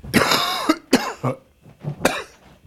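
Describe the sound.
Someone coughs and clears phlegm from the throat in a few harsh, wet bursts, the first one long and rasping, followed by shorter hacks and throaty grunts with brief pauses between.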